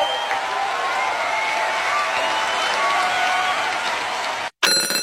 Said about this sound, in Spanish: Y los aplausos.